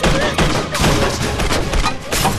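Rapid gunfire laid down as covering fire during an attack near dumpsters, dense overlapping shots in loud, continuous bursts with barely a pause.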